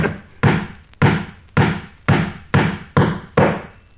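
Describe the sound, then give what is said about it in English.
An amateur carpenter hammers nails into wood, producing seven sharp, loud thuds in a steady rhythm of about two per second, each ringing briefly before the next blow. “Excuse me should I most inadvertently hit the thumb now and then. I'm only an amateur carpenter. But even as I nail, I can see to shoot very well.”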